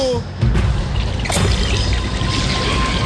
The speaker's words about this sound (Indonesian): Kenapa jadi begini? Kenapa air sudah di mana-mana? Iya, ini sudah air bah ini